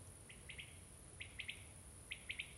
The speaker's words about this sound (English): noticing any other sounds that might appear and disappear, the occasional bird song